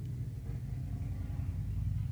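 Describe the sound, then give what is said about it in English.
A neighbour's motorbike leaving for work early in the morning, a faint, steady low engine rumble that holds for about two seconds with no clear revving. “Sorry, guys, there's just motorbike. It's my neighbor. I think he's leaving for work.”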